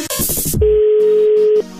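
A telephone call is placed. A loud, rapid jumble of clicks and noisy bursts comes first, then a single steady mid-pitched tone holds for about a second before cutting off abruptly.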